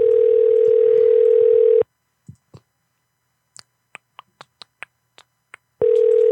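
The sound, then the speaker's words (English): A steady telephone dial tone cuts off, followed by a run of sharp, separate clicks of a phone keypad being dialed on a call, before the steady dial tone returns. “Maybe I dialed one too many numbers.”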